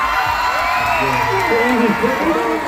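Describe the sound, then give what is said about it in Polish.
A crowd in a Tel Aviv square cheers and whoops at news of hostages' release, a loud, continuous mass of overlapping voices with rising and falling shouted tones. “Kiedy rano media podały, że pierwszych 7 zakładników właśnie wjechało do Izraela, tłum nie krył ogromnej radości.”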